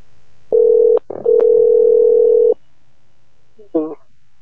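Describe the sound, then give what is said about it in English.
Telephone dial tone heard while a call is being placed: a steady, loud hum lasting about two seconds with one brief break, then silence and a short warbling tone afterward. “I'm dialing it up.”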